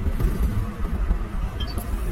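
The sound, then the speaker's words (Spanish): A generator runs to power offices at a camp, giving a steady, loud, low engine rumble that drones on without a break. “estas oficinas funcionan con un generador”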